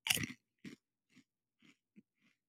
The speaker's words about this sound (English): There's a shovel handfuls of chips in my mouth.